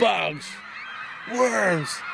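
Canada geese honk in two separate drawn-out calls, each falling in pitch, with a quieter pause between them.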